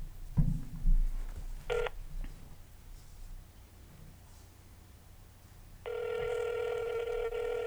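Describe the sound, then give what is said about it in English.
Phone keypad dialing tones: a short beep, then after a pause a sustained electronic tone that runs to the end, with a couple of soft handling thumps at the start. “Oh, prank call 911. Star 67911.”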